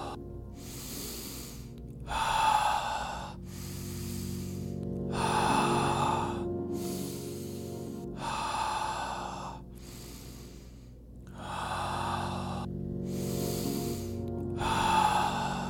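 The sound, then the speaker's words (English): Slow human breathing during a guided breathing exercise: several soft, even in-and-out cycles with airy hiss at a calm, regular pace, fairly faint, with no talking. “Continue following my breath.”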